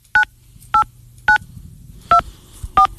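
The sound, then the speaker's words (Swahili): Telephone keypad tones beep as a PIN is entered: five short, clear two-tone presses, evenly loud, separated by quiet gaps with a faint hum between them. “Please enter your complete PIN number.”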